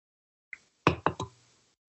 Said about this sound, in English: I'm just going to sit here and enjoy my beverages. Yes, that's plural. Hey, there's a crack open.